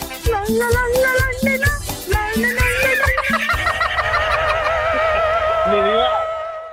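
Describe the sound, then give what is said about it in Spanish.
A pet bird sings, opening with quick rhythmic chattering notes before shifting into a long, wavering warble of high tones that holds for several seconds and fades at the end. “Vámonos, Pola, que deja de estar cantando esas cosas tan feas.”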